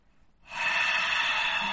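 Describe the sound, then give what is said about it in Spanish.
A voice imitating a dragon exhaling its breath, a loud, breathy hiss that starts abruptly after a brief near-silence and holds steady and sustained to the end. “y exhala su aliento de dragón y la lía parda”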